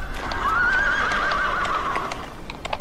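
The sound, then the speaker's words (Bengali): A horse lets out one long, wavering whinny from a team of four horses pulling a tall carriage. Faint clip-clop hoofbeats follow at the end. “এবার গাড়ির আলোয় আমি দেখতে পেলাম চারটি ঘোড়া, তার পেছনে উঁচু একটা ক্যারেজ।”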